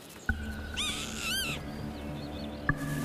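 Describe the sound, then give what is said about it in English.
Pheasant call, a short burst of several harsh, high, arching notes in quick succession, rising clearly above a low steady background hum. “A pheasant.”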